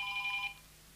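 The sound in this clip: A mobile phone rings during a talk: a brief, steady electronic ringtone lasts about half a second, then cuts off, leaving a faint low hum.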